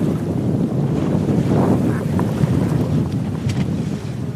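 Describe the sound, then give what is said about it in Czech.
Large waves wash against a boat on Lipno reservoir, mixed with heavy wind buffeting the microphone. A loud, steady, rushing roar fills the whole clip without a break. “My pokračujeme v plavbě po Lipenské přehradě s vědci z Biologického centra Akademie věd České republiky a naši práci výrazně stěžují, jak možná slyšíte, naši práci výrazně stěžují velké vlny”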